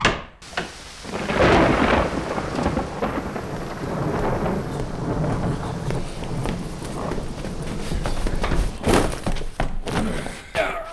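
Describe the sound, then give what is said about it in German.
Thunderstorm with rain: a loud, rolling rumble of thunder swells and holds over steady rain, then a few sharper bursts near the end. “Ein Unwetter. Schnee, Regen.”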